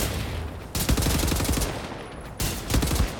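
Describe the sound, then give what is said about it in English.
Automatic gunfire in a video game: a long burst of rapid, sharp shots, a brief pause, then a second rapid burst, loud throughout with no talking. “Shooting at me.”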